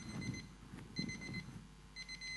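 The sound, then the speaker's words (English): Timer alarm beeping in three short bursts of high, electronic tones, about a second apart and the last running to the end, over a low background rumble. “alarm. Lost my train of thought with the beeps.”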